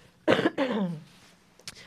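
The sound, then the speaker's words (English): Two rough coughs in quick succession, the second trailing into a voiced, raspy throat-clearing tail, followed by a brief faint click. “I need a cough, 1 second.”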